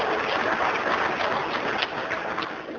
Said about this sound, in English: I'm delighted that you applauded that, because you should.